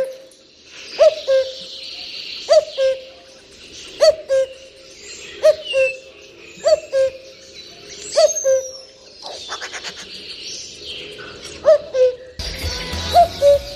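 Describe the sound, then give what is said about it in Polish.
A male cuckoo calls a steady, repeated two-note song, the pairs coming at a regular rhythm, while fainter high bird chirps sound in the background. “po co i dlaczego taki oto głos wydaje kukułka, a dokładnie samiec kukułki?”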